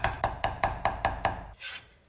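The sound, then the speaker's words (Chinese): A knife chops a small piece of smashed ginger into mince with seven sharp, evenly spaced strikes on a board, then a short scraping sound. “准备二黄姜一小块拍散剁碎备用，”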